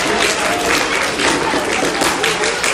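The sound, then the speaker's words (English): An audience in a synagogue applauds children with dense, steady clapping that holds at an even level throughout. “So first of all, a round of applause for all of the beautiful children”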